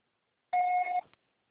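Voicemail beep on a TIM mobile line after the recorded prompt: a single clear electronic tone lasting about half a second, alone against silence.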